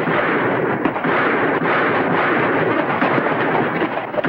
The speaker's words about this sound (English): Taking aim, the kid shoots one of the outlaws on the sidewalk.